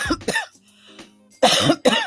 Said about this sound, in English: and I'm coughing.